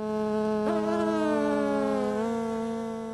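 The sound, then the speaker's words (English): A blood-sucking mosquito gives a loud, continuous, high-pitched whining buzz with a rich, steady harmonic tone that holds nearly level throughout. “If not, that's probably because you're not one of the world's most common blood-sucking insects.”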